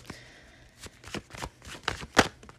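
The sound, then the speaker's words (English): Tarot cards shuffled and drawn from the deck: a few quick papery riffs and snaps, faint and spaced apart, with no talk. “Next card out. Justice card.”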